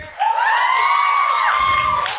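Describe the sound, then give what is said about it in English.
Audience cheering at a live Harry Potter discussion event: a loud, sustained roar with a held, whoop-like shouted tone. It swells in at the start and holds steady for about two seconds before cutting off. “If you think Snape is evil. Cheer now.”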